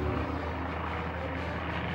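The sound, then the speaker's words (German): Airplane in flight losing altitude, heard as a steady droning engine roar with a continuous low hum that holds even throughout. “Ein bekannter Druck in der Magengegend sagt mir, dass das Flugzeug an Höhe verliert.”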